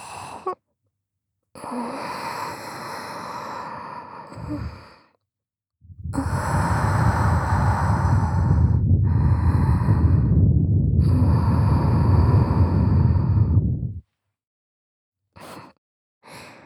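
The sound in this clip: Breath is blown deep into the listener's ear: a few soft, airy breaths, then one long, steady, rushing exhale lasting about eight seconds, and a couple of brief, faint puffs at the end, with no talking.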